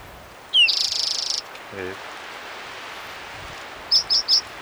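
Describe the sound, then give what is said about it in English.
A bird crying: a high, buzzy trill lasting under a second, then after a pause three short, sharp high chirps in quick succession over a faint steady background hiss. “Might be a second bird crying.”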